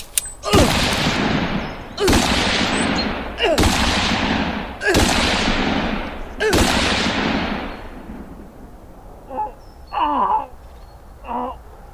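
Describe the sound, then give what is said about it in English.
Five loud gunshots from a concealed-carry handgun ring out at fairly even intervals, each a sharp crack with a long decaying tail. Brief strained cries and voices follow after the shooting stops. “Why, bro? Why'd you shoot?”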